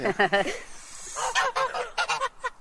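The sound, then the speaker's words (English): Farm geese honk loudly in a rapid, nasal chorus. Bursts of overlapping calls come in quick clusters, with a short lull in the middle. “These are the geese over there. It makes too much noise, like.”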